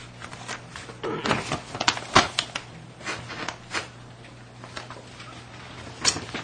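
Paper crackling and tearing as a bid letter from a newspaper is opened: a string of short, sharp rustles, scrapes and taps, busiest in the first half, over a steady low hum.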